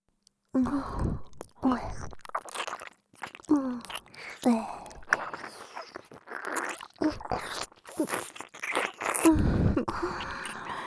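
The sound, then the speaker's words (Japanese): Eating and chewing, with many wet bites, crunches and mouth sounds in an irregular rhythm, mixed with breathy, voiced sighs between the bites. “すっごく気持ちよく、おいしく食べて差し上げますわ。 それでは、いただきます。”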